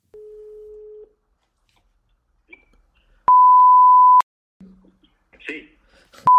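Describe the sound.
Electronic telephone tones of a sales cold call: a steady low beep of about a second, a pause, a louder higher sustained tone, a short lower tone, some faint brief sounds, then another high beep cut off at the end.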